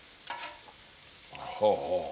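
A frozen steak frying in a pan gives off a steady sizzling hiss that swells louder partway through.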